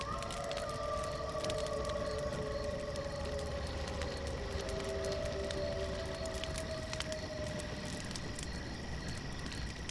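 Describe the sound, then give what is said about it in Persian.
Wolves howl in the distance, long drawn-out tones overlapping and sliding slowly downward in pitch, a few voices at once, over a steady background hiss with faint insect-like chirping. “گرگا از آدم ها میترسن. تازه از صداشون به نظر نمیاد نزدیکمون باشن.”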